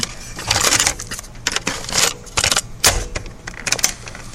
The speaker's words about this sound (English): Let me just turn this tape over.